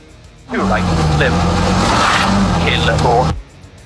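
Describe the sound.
Rally car engine roaring near a stage finish line: loud for about three seconds, revving up and down through gear changes, starting and stopping abruptly.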